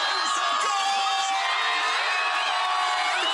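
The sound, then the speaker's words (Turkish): Football fans cheer and shout as they celebrate Morocco's historic World Cup win in crowded squares around Monterrey, Mexico, in front of giant screens. The roar is dense, loud and continuous, with whoops and shrill whistles rising above it. “Geç saatlere rağmen meydanları dolduran binlerce futbol sever dev ekranların önünde tarihi zaferi coşkuyla”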